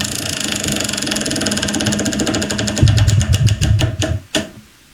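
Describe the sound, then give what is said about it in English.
A prize wheel spins, its ratchet giving many rapid clicks that gradually space out and slow, ending in a few louder, separate ticks before stopping. “You're going to spin it again. You're 3 for 3. Spin that wheel.”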